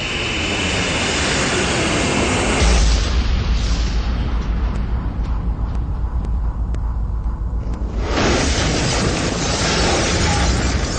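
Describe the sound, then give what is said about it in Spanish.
Bombs exploding during an aerial bombing raid on a city square: a loud, sustained roar with a deep rumbling boom swelling early on, mixed with the drone of aircraft engines. “¡Es un desastre! Se deben haber dado cuenta que las bombas atómicas no funcionaban y vinieron a bombardear la plaza.”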